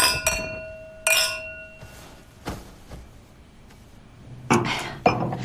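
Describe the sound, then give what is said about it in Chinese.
Glasses clink together in a toast at a meal, a few sharp, bright chinks spread across the moment, the first ones ringing briefly before fading. “来，干杯！”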